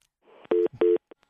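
Two identical telephone beeps follow a dropped call. Each is a steady mid-pitched tone lasting about a sixth of a second, with a short gap between them, a soft faint noise just before and a couple of tiny clicks after.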